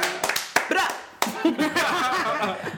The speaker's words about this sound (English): Put your hands together for Morgan Parker. Yay!